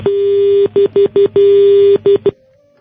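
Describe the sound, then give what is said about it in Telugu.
Line tone on a telephone call being disconnected: a steady mid-pitched electronic tone broken into about seven bursts, two long and the rest short, then dropping to a faint hum. “మీరు call disconnect చేస్తారా? Next callers wait చేస్తున్నారు.”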